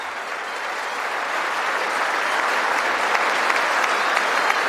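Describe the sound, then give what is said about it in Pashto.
Sustained applause for a speech in the US Congress: a dense, steady wash of many hands clapping that grows slightly louder and carries on without a break. “او د بهرنیو چارو وزیر هره شیبه ودریږي او لاسونه ورته پړکوي.”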